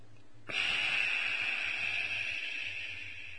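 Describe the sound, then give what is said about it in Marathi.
A long breath out after holding the breath: an airy hiss starts abruptly, then holds steady and slowly fades over about three seconds. “5-7 सेकंदानंतर श्वास सोडायचा.”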